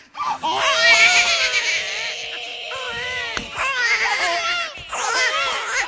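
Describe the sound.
A comic performer imitates crying babies with his voice: loud, wavering, high-pitched wails that rise and fall, broken by brief pauses between bursts.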